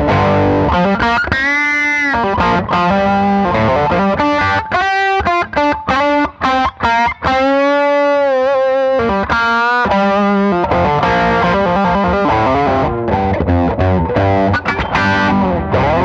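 Electric guitar through a Klon overdrive pedal with the gain turned all the way up, giving thick, loud distortion. It plays riffs and sustained chords with a few short breaks in the middle.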